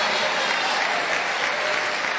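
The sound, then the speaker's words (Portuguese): Applause from a church audience clapping for Jesus during a Portuguese-language service, a thick, continuous roar of many hands that stays level and unbroken throughout. “aplaude a Jesus e dá glória”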